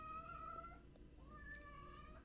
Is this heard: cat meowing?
yes

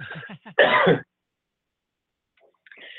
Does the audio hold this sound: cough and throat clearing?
yes

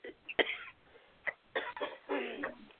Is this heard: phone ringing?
no

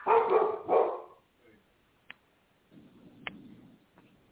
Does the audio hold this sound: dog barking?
yes

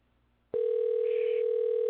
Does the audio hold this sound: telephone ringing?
yes

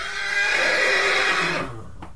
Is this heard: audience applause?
no

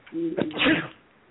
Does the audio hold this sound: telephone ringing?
no

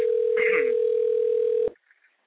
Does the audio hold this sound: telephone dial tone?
yes

